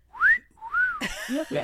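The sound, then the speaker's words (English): A person whistles by mouth to imitate a whistle, producing a few short, wavering notes. The first slides upward and the later ones are lower and shorter. “He invented the first rape whistle, but it sounded like this.”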